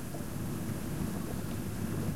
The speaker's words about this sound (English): The storm is getting worse. Perfect night for mystery and horror.